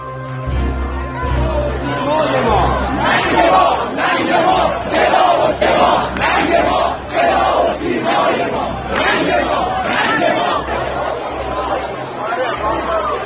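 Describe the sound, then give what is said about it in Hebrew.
A protest crowd in Tehran, Iran, chants a slogan against the dictator in loud, rhythmic unison, with the massed voices swelling and repeating steadily and crowd chatter in the background. “מוות לדיקטטור, הקולות האלו מגיעים מטהרן בירת איראן, במה שנראה כעוד צעד בדרך למרי אזרחי במשטר האיראני.”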